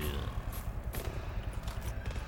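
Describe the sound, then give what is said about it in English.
Gunfire from a gun in a video game: a series of sharp, cracking shots at irregular intervals. “My gun shooting.”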